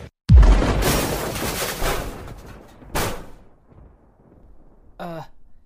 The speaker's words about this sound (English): Oh man, is that a missile?